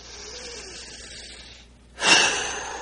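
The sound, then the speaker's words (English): A deep breath taken during a guided meditation: a faint, steady airy inhale gives way to a brief pause, then a louder, broad rushing exhale that swells quickly and trails off gradually. No one speaks over it. “And we take another deep breath.”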